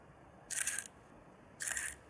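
Two short camera shutter sounds as photos are taken. Each is a brief, crisp mechanical burst, and about a second of near silence separates them.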